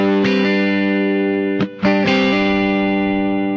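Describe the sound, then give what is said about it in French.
A factory sound preset with gain, delay and reverb produces a thick, distorted sustained chord that rings throughout. It is re-struck a few times, with a brief drop near the middle and the tones carrying on loudly. “Ils ont mis du gain et ils ont mis un délai et une reverb.”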